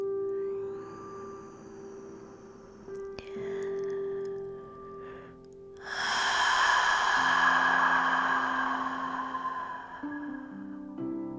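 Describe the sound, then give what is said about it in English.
A person takes a slow, deep breath: a long, airy rush of breathing that swells loud for a few seconds over a soft, sustained musical tone. “And breathe it out. Again, breathe it in.”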